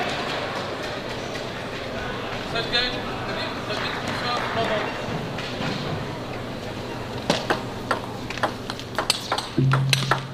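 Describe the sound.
Table tennis ball struck during a professional match involving Fan Zhendong: a rapid series of crisp, sharp pops from a rally arrives toward the end, heard beneath continuous commentary and crowd murmur.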